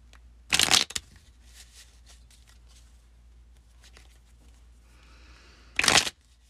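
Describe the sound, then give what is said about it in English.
A deck of cards being shuffled and a card pulled from it: two short, dense riffling bursts several seconds apart, with faint rustles and handling noises between them. “So we're going to pull another card.”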